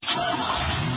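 A car engine runs steadily and loudly, a dense, even rumble that holds at one level for about a second with no clear change in pitch.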